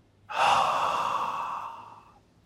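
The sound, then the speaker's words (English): Slow breathing for a relaxation exercise, in through the nose and out through the mouth: a single long, airy breath that swells quickly, then fades gradually, alone and fairly soft. “So let's breathe slowly in through our noses. Then slowly breathe out through our mouths and count.”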